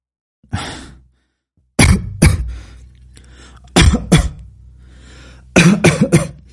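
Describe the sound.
Coughing fit from a non-smoker after the first puff of a cigarette: loud, harsh coughs in several clustered bursts separated by short breaths, with no talk.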